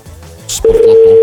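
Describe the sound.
A telephone line sounds a steady, loud connection tone as a call is placed. A short burst of noise comes before it, then the tone holds unbroken to the end.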